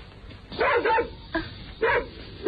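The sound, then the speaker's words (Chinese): A dog barks sharply several times in an irregular rhythm, each bark a loud, brief burst over low background noise. “这只讨厌的狗来的真不是时候。”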